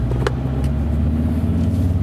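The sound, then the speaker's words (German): A car drives along at an easy pace, its engine giving a steady, loud, low rumble that holds evenly throughout. “Und fahren gemütlich dahin. Auto.”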